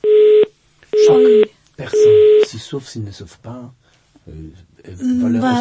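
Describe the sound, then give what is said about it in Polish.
Telephone busy signal after a dropped call: three evenly spaced, steady-pitched beeps at a loud, constant level. A voice then starts talking over the line. “Bardzo żałujemy, połączenie zostało przerwane, ale odbieramy następny telefon”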